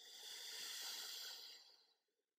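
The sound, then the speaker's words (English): One slow, deep breath during a relaxation exercise: a soft, airy hiss that swells, holds for about two seconds, then fades away quietly. “As you listen to my breath, take a deep breath in and a deep breath out.”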